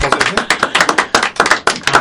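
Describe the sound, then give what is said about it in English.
Applause from a small audience after a poem about the Great War is recited: a few people clapping in loud, sharp, evenly spaced bursts. “I think that's a round of applause.”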